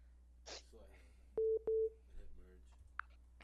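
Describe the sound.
Two steady mid-pitched electronic tones beep one after the other as a phone line connects for an incoming caller, with quiet talk around them.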